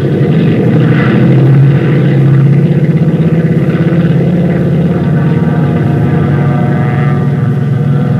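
Steady, loud drone of propeller aircraft engines on a multi-engine plane taking off, a thick low throb that holds at an even level throughout with no clear break.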